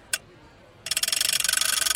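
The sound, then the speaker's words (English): A prize wheel spinning, its pointer ratcheting past the pegs in a rapid, even run of many crisp ticks after one lone click at the start. “so let's spin the wheel. It's spun.”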